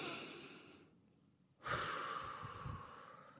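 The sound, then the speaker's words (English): Deep breaths during a shared breathing pause: a soft, airy breath fades out, then after a short gap a sudden, stronger intake of breath swells and slowly tapers, faint overall. “We're gonna take a deep breath in. Come on, y'all, breathe with me, y'all.”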